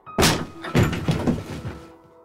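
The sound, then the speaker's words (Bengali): A police station door shoved open with force gives a heavy, loud thunk, followed by a few further knocks and rattles that fade out. “হঠাৎ তার চোখ পড়ল দরজায় একটা ছেলে স্টেশনের দরজাটা জোরে ধাক্কা মেরে ঢুকে এলো”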